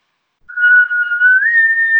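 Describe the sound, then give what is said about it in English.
A person whistles a signal call like one used to keep a group together. It is a single clear, sustained high tone that steps up slightly in pitch partway through, heard alone. “Then there's this whistle, and this whistle, I don't know if it'll come through on here, but I'll try it.”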